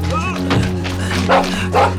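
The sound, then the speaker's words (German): A dog barks during a chase as thieves flee an approaching police car. Two sharp, louder barks come near the end over a steady low hum, with softer yelping sounds earlier. “Hilfe! Ein Hund!”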